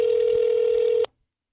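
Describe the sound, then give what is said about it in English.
A steady telephone tone sounds over speakerphone as a call is placed. It is one continuous, even tone lasting about a second, then cut off abruptly into silence. “I'm going to call him on speaker because we could do this a lot faster and we're wrapping up.”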